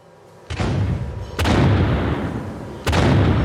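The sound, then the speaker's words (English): Three loud booms from cereal puffing guns at the Ranger Joe factory in Chester, Pennsylvania, in 1949. Each is a sudden blast that trails into a sustained low rumble still sounding when the next one hits. “It's 1949, and in Chester, Pennsylvania, the boom of serial puffing guns is reverberating through the Ranger Joe factory.”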